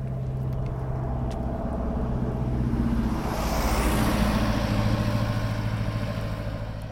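A car driving along roads through the countryside in Gansu, China, gives a steady, loud low engine drone and road rumble that swells slightly in the middle and eases again, with no voices.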